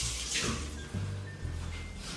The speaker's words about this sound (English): Just gonna wash my hands.